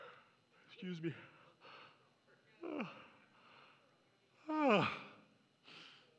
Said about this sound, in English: So if you didn't yawn when I just yawned,